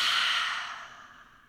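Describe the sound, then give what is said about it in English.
A single deep exhale during a guided breathing exercise, a soft, airy whoosh of breath that starts full and gradually fades away over about a second and a half, heard alone. “Deep inhale. Hold. Exhale.”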